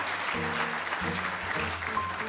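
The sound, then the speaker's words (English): Studio audience applauds a quiz show contestant's family, a continuous patter of clapping at moderate level with no pauses. “We applaud every family.”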